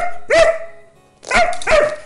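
A dog barks a few times in loud, sharp, mid-pitched yelps, with a brief quiet gap between the first bark and the rest.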